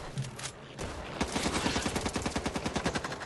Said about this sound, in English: Got some good gun noises, some good gun looks.